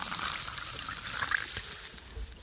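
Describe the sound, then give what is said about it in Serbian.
Sparkling mineral water pours with a steady, bright fizzing hiss that carries on evenly from start to finish. “Otvori kiselu vodu”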